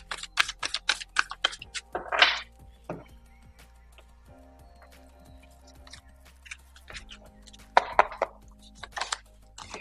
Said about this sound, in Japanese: アドバイスカードの方を引いていきます。少々お待ちください。